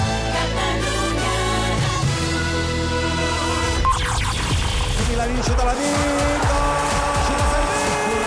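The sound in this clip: Racing car sound effect opening a Scalextric slot-car race segment. A loud, roaring engine drones on steady tones, then partway through a sharp tire screech and skid sweeps across it as the engine noise carries on.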